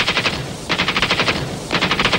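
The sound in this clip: Automatic gunfire, shooting at will: loud, rapid rattling shots in three sustained bursts separated by short pauses, with no voices.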